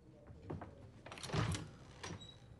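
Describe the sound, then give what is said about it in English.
An unlocked interior door being opened during a search for a restroom, giving a few soft clunks and a brief scraping swish, quiet throughout. “opens the door”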